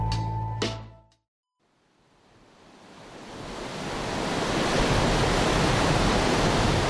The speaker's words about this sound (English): And that sound you're hearing is the sound of the Ottawa River. It's already at a record high, and it isn't even supposed to peak until today or later tomorrow.